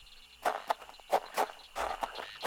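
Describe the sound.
Footsteps of people walking, a handful of soft, irregular scuffing steps that rise and fade one after another, fairly faint and with no talk over them.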